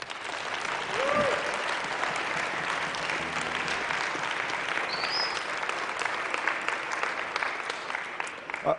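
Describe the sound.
Audience applause welcoming a speaker at an evening Bible College gathering, a steady, loud wash of clapping from a crowd that holds for about nine seconds.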